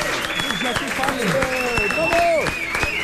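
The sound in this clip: An audience applauds a performer who is being introduced, with steady, dense clapping throughout. Whooping voices and high cheers ride on top of the clapping.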